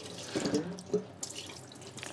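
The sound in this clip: Water runs from a tap in a brief, steady hiss-like splash that stays fairly loud throughout.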